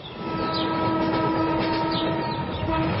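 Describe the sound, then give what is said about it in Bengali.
A train passes right in front of a bungalow with a loud, steady rumble. Sustained horn-like tones ring over the rumble throughout the short clip. “Train যায় একেবারে ওদের বাংলোর সামনে দিয়ে।”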